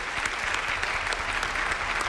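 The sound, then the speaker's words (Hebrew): Steady applause from an audience at a lecture on religious law: dense, even clapping that keeps up throughout at a constant level, with no voices standing out. “מחיאות כפיים לרב אסף מחלב.”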